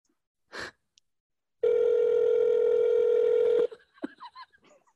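A telephone ringtone on an outgoing call: one steady, loud electronic tone holding for about two seconds, preceded by a brief noise and followed by a few faint, short sounds.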